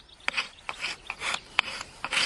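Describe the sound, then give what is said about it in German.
Dry rasping scrapes as the back of a knife shaves fine, sawdust-like curls from resinous pine kindling like a plane, in a quick, uneven series of many short strokes of varying loudness. “Auf dem Messerrücken. Genau. Und das ist wie so ein Hobel. Genau. Und das ist wie Sägespäne im Grunde.”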